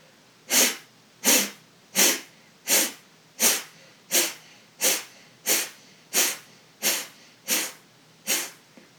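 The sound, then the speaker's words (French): Breaths in and out through the right nostril during a breathing exercise, twelve evenly spaced, sharp, airy nasal rushes at a steady rhythm. They are fairly faint, with quiet pauses between and no talk. “Et 12 fois, vous inspirez, vous expirez par la narine droite.”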